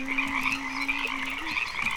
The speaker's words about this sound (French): Un matin, elle ouvre les fenêtres pour laisser aller les milliers de grenouilles.